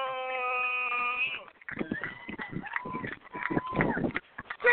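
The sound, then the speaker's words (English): The Petersburg band plays at a football game, opening with a long, sustained brassy chord, then breaking into busy, choppy passages of shifting notes and rhythmic hits. “And there goes the Petersburg band, as you can hear them.”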